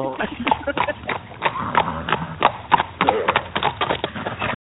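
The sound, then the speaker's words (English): Horse hooves clip-clop as the horse runs, sounding as many sharp, irregular knocks in an uneven running rhythm through the whole clip. “Your horse was running, won't it?”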